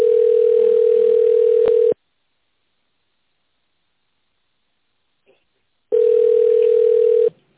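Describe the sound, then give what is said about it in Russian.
Two long, steady, mid-pitched ringback tones of about two seconds each, separated by a few seconds of silence, play while a phone call waits to connect to an operator at an office center. “Для соединения с оператором оставайтесь на линии. Выполняется соединение с оператором.”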